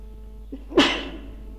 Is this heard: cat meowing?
no